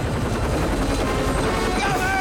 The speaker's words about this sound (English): Mulder bolts as the choppers swoop near. Close behind him, the roving searchlights glow through the green leaves. The helicopters dart just yards above the corn stalks.